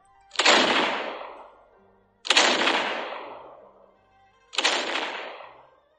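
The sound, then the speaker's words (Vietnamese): Cannon fire from warships: three loud, deep booms spaced about two seconds apart, each with a sharp onset and a long rumbling decay. “Tiếng pháo chói tai vang lên, tựa như là sấm động giữa trời quang, cả thuyền đội đều rung động.”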